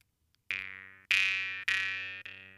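Jew's harp with its tongue pushed forward: four separate twangy plucks, each a buzzing metallic tone with a vowel-like sweep that rings out and decays before the next.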